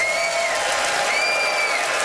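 Audience applause as a vote at a live comedy debate about Tom Cruise films: a steady, even burst of clapping with a couple of high whistles cutting through, alone without talk.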